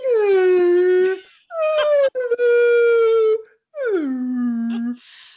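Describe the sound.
A human voice imitates humpback whale song in three long, drawn-out moaning calls, loud and alone. The third call slides downward in pitch.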